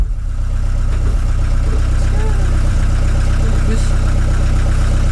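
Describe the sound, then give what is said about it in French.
Motor vehicle engines on a road, a steady loud low rumble of idling and running engines throughout, with faint voices. “Ça y est, on est sur la route. Il va falloir faire doubler tous ces véhicules motorisés.”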